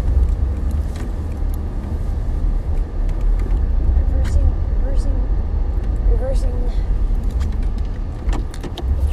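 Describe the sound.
A car engine rumbles low and steady while the car reverses into a parking space. Faint scattered clicks and taps sit over the continuous drone.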